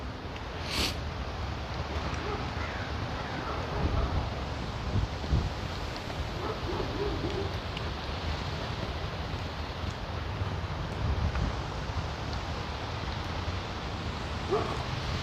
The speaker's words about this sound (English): Okay, that's a lot of wind. I'm being protected by by all the buildings around.